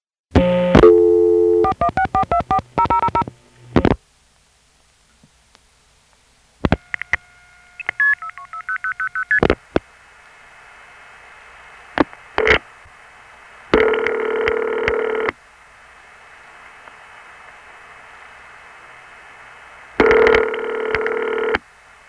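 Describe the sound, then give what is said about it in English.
A telephone call dialed on a line and routed through crossbar exchanges, including a 4A and a crossbar 5, to an intercept in Toronto: rapid dialing tones, a quiet gap, a burst of routing tones, then a few longer steady tone bursts. “this next call to Centralized Intercept in Toronto demonstrates it. This was called on my east side line, and it went through Forest Hills. 21233. The Toronto 4A. 4162. To a crossbar 5.”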